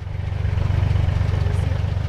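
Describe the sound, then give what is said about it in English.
A farm tractor's engine on a cattle ranch, driving toward cattle, with a steady low, throbbing chug. The rumble pulses evenly at a fast rhythm and holds at a constant level, with no voices. “Their tractor heads toward a cow and her newborn calf.”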